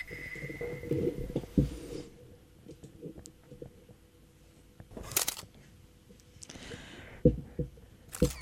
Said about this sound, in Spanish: Por favor, vamos a aflojar con las fotos. Sí, no. Paren con las fotos, por favor. Señor, baje la cámara.